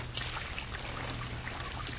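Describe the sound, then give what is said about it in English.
Water running into a basin to wash a child's face: a steady, dense rushing pour that holds the same level throughout, with no talk. “Let's get the water just right so it won't hurt.”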